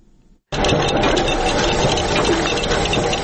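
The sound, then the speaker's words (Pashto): Machines at a 100-year-old state printing press in Nangarhar clatter as one prints and another cuts paper. The dense mechanical rattle starts abruptly after a brief quiet and then runs on loudly and evenly. “دا د سل کلنې دولتي مطبعې له نهو څخه یوازې د دوه ماشینونو غږ دی چې یوې چاپ کوي او بلې کاغذونه پرې کوي.”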